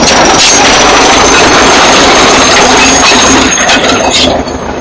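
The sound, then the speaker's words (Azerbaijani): Tractor engine working to clear a village road, a loud, steady, dense roar with a thin high whine running through it, easing off slightly at the very end. “Elə girəcəkdə cəmaat yığışıb yolu təmizləyən traktoru tamaşa edirdi.”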